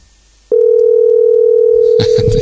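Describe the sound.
A telephone line tone on an outgoing call: a loud, steady single-pitch tone that starts abruptly after a short quiet moment and holds unbroken. Near the end, a voice and other sounds join over it.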